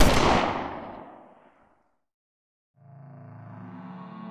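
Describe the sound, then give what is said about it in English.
A single blast from a recently purchased 20-gauge shotgun hits hard at the start and dies away over about a second and a half. After a silent pause, a faint, steady tonal hum begins. “He pressed the barrel of the recently purchased 20-gauge shotgun to his head and cocked back the trigger. He positioned his thumb awkwardly against the trigger, and he fired.”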